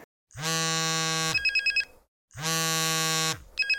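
An electronic telephone ringtone signals an incoming call. It rings twice, each ring a sustained buzzy tone followed by a quick pulsing trill, with a short silence between the rings.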